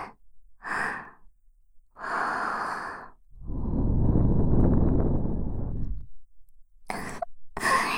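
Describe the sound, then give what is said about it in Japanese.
Breath blown into a slick, wet ear: several airy, breathy puffs, with one long, low, rushing blow of nearly three seconds in the middle and softer, hissy breaths before and after it. “ぬるぬるにされたお耳にふうされるのゾクゾクするよね。”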